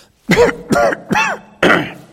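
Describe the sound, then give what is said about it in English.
A person clears their throat in four short, rasping bursts. The first three come close together and a last one follows after a brief pause, each loud and gravelly with no talking in between. “Excuse me, I got a frog in my throat again.”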